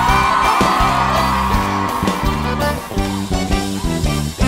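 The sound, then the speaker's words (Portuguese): A crowd yelling and whooping loudly at a gospel concert, a sustained roar of voices over steady music with a rhythmic beat running throughout. “Dá um grito aí, vai!”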